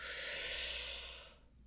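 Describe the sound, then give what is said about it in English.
A single long, breathy hiss of deliberate relaxation breathing, in through the nose and out through the mouth, swells steadily and then fades quickly to near silence. “And just taking some breaths, okay? And we're gonna breathe in through the nose”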